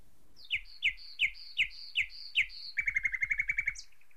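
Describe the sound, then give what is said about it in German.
A songbird sings in daytime: six evenly spaced, bright two-part chirps, then a rapid run of many short notes, clear and alone. “Eine Nachtigall? Nein, ein Tagvogel.”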